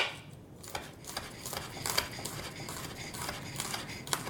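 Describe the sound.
A knife chopping diced ginger, a steady run of many crisp, sharp taps at an even pace, moderately loud with no voices.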